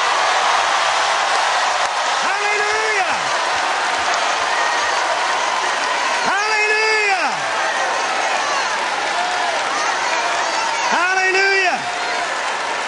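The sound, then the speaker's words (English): A church audience shouts and cheers for the Lord in a steady roar of voices, with three loud, drawn-out shouts standing out above the crowd. “If you believe it, give the Lord your best shout.”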